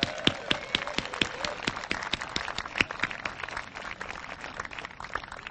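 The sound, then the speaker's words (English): Scattered clapping from an audience at an outdoor civic celebration, applauding a band that has just played. Sharp, separate hand claps land in a loose, uneven rhythm at moderate loudness. “give a big hand to that wonderful band”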